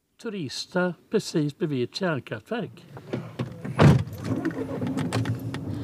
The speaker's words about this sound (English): He takes us on a 3-kilometer drive down narrow forest paths.